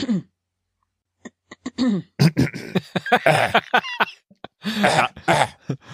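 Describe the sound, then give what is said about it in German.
Throat clearing sound effect: many rough, throaty rasps and grunts, starting with a few short isolated bursts and then turning into longer, denser, clustered hacks, loud and alone with no talk. “spiele dir das Geräusch Räuspern Nummer 17 vor”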